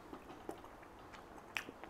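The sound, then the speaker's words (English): Crisp bite into a crunchy apple during a meal, heard as a few faint, brief crunching snaps with chewing noises between them and no talk. “Nice bit of crunch in that apple.”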